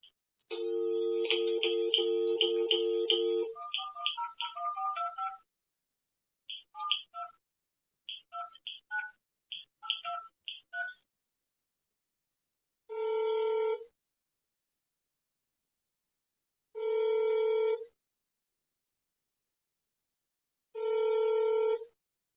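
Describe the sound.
Touch-tone dialing while placing a call to leave a voicemail: a steady tone gives way to a quick, uneven run of many keypad beeps, then three separate, evenly spaced ringing bursts with silence between them.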